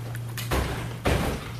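A building door opens as people walk in, making two broad, soft whooshing thuds about half a second apart over a steady low hum.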